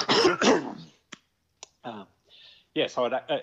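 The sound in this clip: Throat clearing from a person with something caught in their throat, a few short rough bursts set among stretches of talk.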